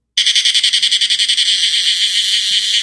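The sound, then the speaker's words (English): Cicadas sing in summer: a loud, high, buzzing drone that pulses rapidly at first, then settles into a steady, unbroken whine. “And so I looked up how the lifespan of the cicada actually plays out. And here's what I've learned. They can spend up to 17 years of their life underground only to emerge for a short few weeks. And in those weeks, they sing at the top of their lungs.”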